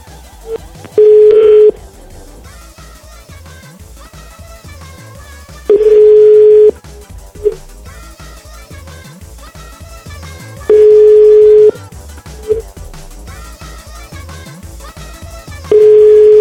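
Telephone ringback tone from an unanswered call: four steady one-second beeps at a medium pitch, spaced about five seconds apart, over quiet background music.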